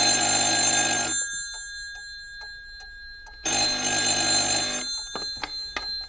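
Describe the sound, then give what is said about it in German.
A telephone rings twice in an office, each ring a bright, buzzing bell burst lasting just over a second, separated by a pause, with a few soft clicks after the rings. “Das Telefon klingelte.”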